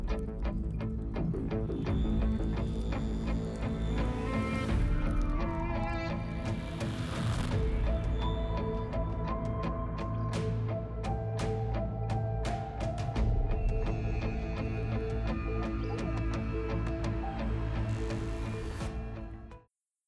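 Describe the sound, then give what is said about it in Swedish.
Intro theme music plays at a steady full level for about twenty seconds. The sound is dense and layered, with sustained tones and occasional bright accents, and it cuts off abruptly at the end. “Vi gör så här, vi startar intromusiken nu och sen så får ni höra vad jag har bjudit på efter introt.”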